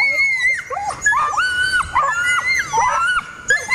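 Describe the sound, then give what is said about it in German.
A Nova Scotia duck tolling retriever gives its loud, shrill scream in a rapid series of high, wavering, piercing cries broken by brief gaps. “Dann haben die sogenannten Tollerschrei und der ist eben sehr laut, sehr schrill, geht gefühlt durch Mark und Bein.”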